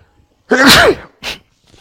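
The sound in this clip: A loud, sharp sneeze bursts out abruptly, then a shorter, softer burst follows a moment later before quiet returns.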